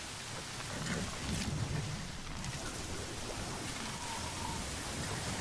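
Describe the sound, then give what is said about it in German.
Video-game rain, fault of uneven loudness, pours as a dense, continuous hiss with small surges and dips in level throughout, with no voices over it. “Der Regen ist ungleichmäßig laut.”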